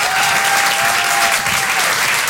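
Audience applause for a comedian at a comedy club: dense, steady clapping from many hands that holds at an even, loud level throughout, with no pauses or clear single claps.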